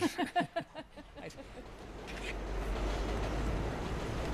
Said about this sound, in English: that's the 7 train. This is Woodside or Sunnyside in Queens.